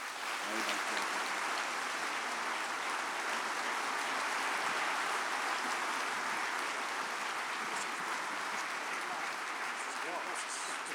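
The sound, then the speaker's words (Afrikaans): A church audience at a morning service applauds with their hands, a steady, even patter of many clapping hands that holds at moderate loudness for about eleven seconds without a break. “ek dink dit is goed, as ons nou vir hierdie twee besondere mense 'n lekker hande applous gee.”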